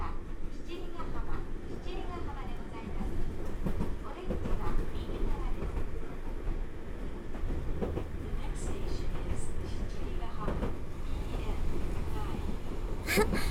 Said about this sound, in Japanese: この先、向こうから来る電車と待ち合わせしますよ。